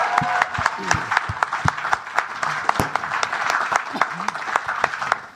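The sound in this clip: Lively audience applause for a band at a live Christmas special show, brisk, crowded clapping with sharp individual claps popping out and voices calling under it.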